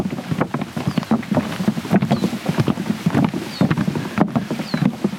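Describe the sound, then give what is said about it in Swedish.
Outdoor wind blusters over wet marshland at Poland's border with Belarus, beside a narrow wooden boardwalk. A steady low rumble carries irregular rustles and soft knocks throughout. “Det här är ljudet av Polens gräns mot Belarus, eller NATOs mot Ryssland, om man så vill.”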